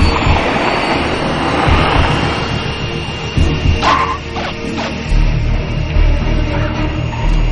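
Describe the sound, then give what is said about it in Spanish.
A Hawker jet lands on an airport runway with a steady, loud, broad rumbling roar that lasts throughout. A few short, higher rattling bursts come through near the middle. “El avión toma tierra.”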